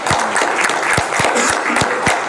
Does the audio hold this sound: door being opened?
no